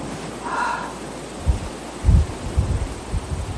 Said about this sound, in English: Kind of all we can hear now is wind in the trees. We're up near the tree line.